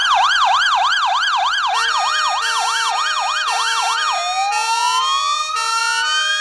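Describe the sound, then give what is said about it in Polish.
Emergency vehicle siren blaring loudly on its own, first a fast warbling yelp that swings rapidly up and down, then switching to slower rising wails that sweep upward repeatedly. “Chociaż mówię, my mamy bardzo głośne sygnały, my mamy naprawdę dużo głośniejsze sygnały od policji.”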